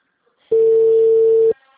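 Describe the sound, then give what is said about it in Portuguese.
A telephone busy signal: a single steady, mid-pitched tone sounding alone for about one second, starting and stopping cleanly. “discado não está atendendo. O número está ocupado.”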